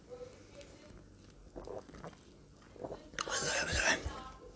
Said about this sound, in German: Ich reiß mir jetzt auch ein Bier auf, ohne Scheiß. Ich will keine Werbung machen für nichts, aber äh, ich sauf jetzt einen Bitburger.